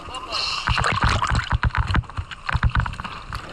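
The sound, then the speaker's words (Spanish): Water splashes and sloshes as a sea turtle is released and swims into open water, a busy run of irregular splashy bursts mixed with wind rumble. “Ese es el sonido del momento. Merece la pena, si podéis, ver las imágenes de cómo esta tortuga vuelve a nadar en aguas abiertas”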